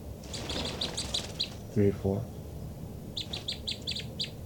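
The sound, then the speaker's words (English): Birds chirp in two bursts of quick, high, repeated notes, one at the start and one near the end, with a brief lower call sounding between them. “Both birds. It's recording the birds again.”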